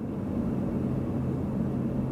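Steady low drone of an airplane flying in to Saül in French Guiana, an unbroken rumbling engine hum that holds at an even loudness throughout, with no voices.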